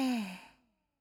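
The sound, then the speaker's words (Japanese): Slow breathing during a guided relaxation exercise, heard as a single soft, sighing exhale that starts clearly and fades away within about half a second. “吸って、吐いて、”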